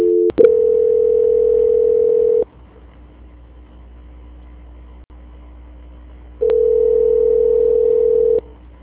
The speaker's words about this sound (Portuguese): estou transferindo a ligação da senhora para o controle de qualidade que dará continuidade à sua contratação